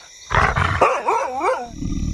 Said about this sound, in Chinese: 这是哈士奇吧？真是受够了，居然拿哈士奇冒充狼。